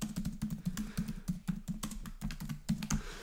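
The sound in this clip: Quick, steady typing on a computer keyboard: many crisp keystrokes in an uneven but continuous rhythm, alone and at moderate loudness.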